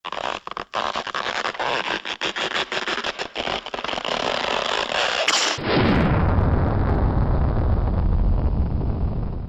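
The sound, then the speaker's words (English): A spaceship launching into space: a crackling burst of pops and bangs gives way midway to a loud, steady, low rumbling roar that continues to the end. “The ship was catapulted into space.”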